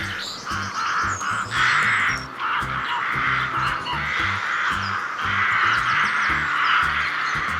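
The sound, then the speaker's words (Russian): A rook cawing: many harsh, raspy calls follow one another in quick succession, loud and nearly continuous. “грач”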